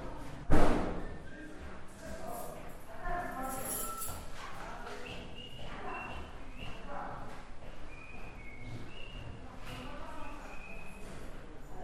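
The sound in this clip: A door being opened at a residential shelter, marked by one loud thump near the start, followed by people talking over low background noise.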